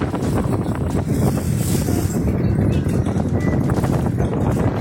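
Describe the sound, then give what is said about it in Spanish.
Wind blowing hard against awnings at an outdoor fair: a loud, continuous rushing roar that stays strong and steady throughout, with no talk. “el viento.”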